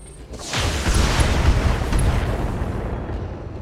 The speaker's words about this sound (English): The Panther gets a good blast on our Shadowhawk.